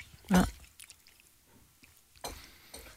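Chewing on a sausage: one loud bite near the start, then softer moist chewing, with a few more crunchy bites toward the end.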